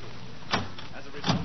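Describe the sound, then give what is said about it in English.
A stuck, locked door being tried carefully gives two short, sharp knocks or clicks against a faint steady hum. “Quiet. Open the door easy. I'm going to.”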